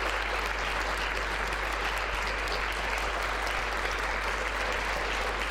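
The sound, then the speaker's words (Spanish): Applause sound effect of many hands clapping in a dense, continuous wash, holding an even loudness from start to finish, with a steady low hum underneath. “vamos a dar mi aplauso de la semana, que hace mucho que no lo daba. Un aplauso, por favor, a Al Davis.”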